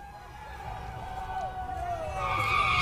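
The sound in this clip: Tires screech as cars spin donuts on Woodward in downtown Detroit on a salted street after a game. Sustained squeals ride over engine roar and build louder toward the end, with voices in the background.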